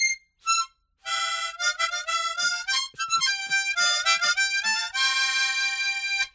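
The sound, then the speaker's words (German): Harmonica playing, notes sounded both by blowing into the instrument and by drawing air back through it. A few short bright notes open, then runs of reedy chords and single tones follow, bright and full, with brief gaps between phrases. “So, bevor ich mich jetzt hier verliere in meinem tollen Mundharmonika-Spielen.”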